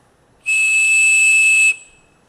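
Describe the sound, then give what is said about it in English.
A whistle blows a loud, steady 2600 hertz tone, used to seize a telephone trunk over a poor connection. It holds one even pitch for just over a second and then stops. “That's the famous 2600 hertz. The whistle, of course, can make 2600 hertz much louder,”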